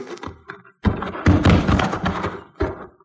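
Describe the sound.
A few dull thunks and thuds as a handgun is handed over and set down, each knock short and muffled, with quiet gaps between them.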